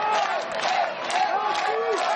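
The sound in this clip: A huge crowd fills a city square while waiting for an open-air anniversary concert. The roar of many overlapping voices stays steady and dense, broken by occasional whoops and shouts.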